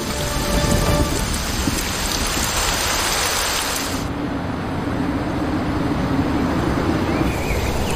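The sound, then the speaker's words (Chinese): Heavy storm rain pounds the land and dense forest, a steady, dense roaring hiss that continues throughout. “风暴持续捶打着陆地，也滋养了密林中的生命。”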